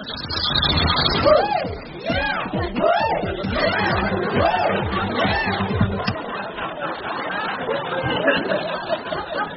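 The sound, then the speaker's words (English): Crowd chatter of a Top of the Pops studio audience picked up by hidden microphones: many overlapping voices with scattered chuckles and laughter, continuous and fairly loud throughout. “It was built by me and my plumber, Hot Bob, who hid microphones throughout the block. Let's try flat 48, which is where they keep the audience for Top of the Pops.”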